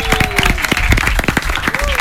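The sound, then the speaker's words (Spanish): An audience at a school event applauds with many dense, overlapping claps, while a voice keeps talking over the applause. “un aplauso para ustedes mismos.”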